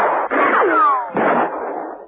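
A barrage of gunshots: two bursts of sharp, crackling reports, with a whining tone that falls in pitch between them like a ricochet.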